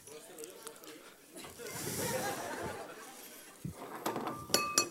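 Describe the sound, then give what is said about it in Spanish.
A drinking glass tips over on a surface, with a few bright clinks clustered near the end over ongoing talk and chatter. “Eso se cae porque hay unas rajas, ¿veis? Se ha caído dos veces y el vaso está, ¿no?”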